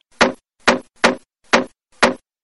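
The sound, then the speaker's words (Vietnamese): A hammer drives a nail into a wooden coffin lid with five sharp, evenly spaced knocks on wood, each loud and crisp with silence between. “Đến đúng nhát thứ 6 thì chiếc đinh mới dính chặt vào hòm.”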